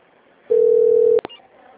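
A steady single-pitch telephone line tone plays while a call is being transferred, holding for under a second before a couple of sharp clicks.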